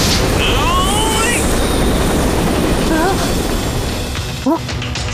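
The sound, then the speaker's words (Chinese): Rotor thrusters starting up on a cartoon vessel, a cartoon sound effect: a loud, steady roaring whir that holds throughout, with a few brief whistling chirps on top and a short dip and sweep near the end. “火箭助推器， 还不够，旋翼推进器启动。”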